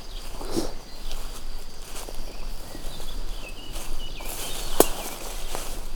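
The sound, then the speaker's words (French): Footsteps cross an open pasture field in a steady, soft walking rhythm, each step a muted crunch on grassy ground, with a low constant outdoor hush underneath. “Puisque nous marchons à présent plein champ.”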